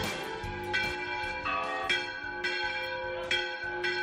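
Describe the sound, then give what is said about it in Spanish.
Church bells ringing in the bell tower of Palencia Cathedral: repeated overlapping strikes at an uneven, steady pace, each leaving a long sustained metallic hum, with no voices. “Lo que escuchamos de fondo es lo que se produce en el campanario de la Catedral de Palencia cuando se ponen a tocar las campanas.”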